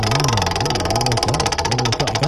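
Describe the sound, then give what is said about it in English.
Rapid, steady clicking of a prize wheel given a hearty spin, a dense run of ticks carried over a warbling low tone throughout. “Let's give the wheel a spin. I will give it a nice hearty spin here to get us started.”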